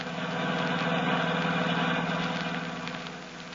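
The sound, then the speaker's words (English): A car engine drones steadily while driving through the San Bernardino Valley in California. The low, even hum and vibration stays constant, with no voices. “We find them now driving back to Hollywood through the beautiful San Bernardino Valley.”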